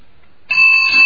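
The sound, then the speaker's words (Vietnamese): A bell is struck once during a Buddhist teaching on listening, breaking a near-silent start with a bright, loud tone that rings on steadily without fading. “Còn bây giờ tôi ngâm cái tiếng chuông này thì nên nhớ rằng là mình cũng nghe đó nghe.”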